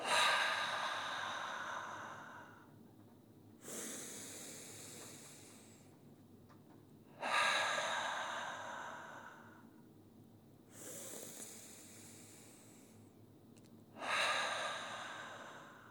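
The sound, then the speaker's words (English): Slow, deliberate breathing, in through the nose and out through the mouth, heard as a few quiet, airy rushes of breath, each starting sharply and fading over several seconds, evenly spaced with no talking. “take three breaths, in through the nose, out through the mouth”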